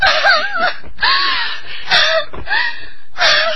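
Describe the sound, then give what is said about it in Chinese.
A person cries in a Huangmei opera drama: five wavering, sobbing vocal wails with breathy gasps between them, moderately loud and heard alone. “你别哭了好吗？”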